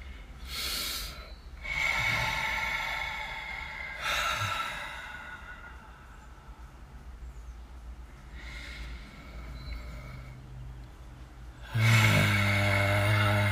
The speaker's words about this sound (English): So, let's just take a deep breath together.